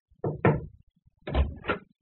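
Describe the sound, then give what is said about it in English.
Knocking on a door by a servant: four dull thumping raps in two quick pairs separated by a short pause, fairly loud against silence. “one of the servants knocked at the door.”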